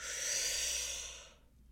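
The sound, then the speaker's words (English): A single steady inhale through the nose, lasting over a second, airy and soft, with no other sound before it fades out. “we're gonna breathe in through the nose”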